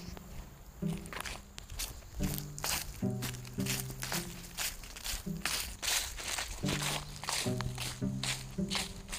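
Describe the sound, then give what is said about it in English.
Footsteps of someone walking outdoors, many soft crunching, squishy steps falling at a steady, regular pace, each step a distinct short burst of varying loudness. “Keep walking. Keep walking.”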